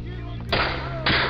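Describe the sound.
Two loud gunshots ring out in a radio drama trailer about gunslingers. Each is a sudden broad blast with a sustained tail that rises above a low steady hum.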